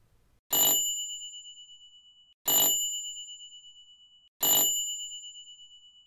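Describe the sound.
A bright bell, like a bicycle bell, rings three times at even intervals about two seconds apart, each clear ding fading slowly, heard alone.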